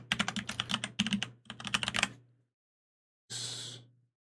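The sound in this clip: Notes are typed on a computer keyboard during a tabletop role-playing game session, in three quick bursts of clattering keystrokes. After a short pause comes a soft, breathy exhale.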